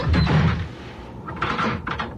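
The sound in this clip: A door being shut and locked: a low rumble, then short rattling mechanical bursts as the lock is worked, fairly loud and with no voices.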